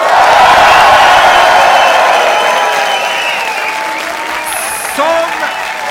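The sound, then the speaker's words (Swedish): Three hundred fifty audience members at the Hilton Stockholm Slussen cheer and applaud, their dense, steady clapping mixed with whoops, loud throughout and easing off slightly toward the end. “Det är 350 personer i lokalen som låter så här.”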